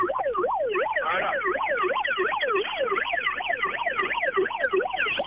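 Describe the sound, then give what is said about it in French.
A siren wails loudly and without a break, with many quick rising and falling sweeps repeating over and over. “Et la sirène. Voilà.”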